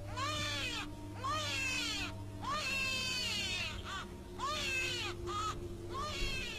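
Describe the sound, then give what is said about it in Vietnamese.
A newborn baby cries just after birth in a series of strained, rising-and-falling wails separated by short pauses. The crying is faint and alone, with no voices. “ở bên ngoài vang lên tiếng trẻ con khóc”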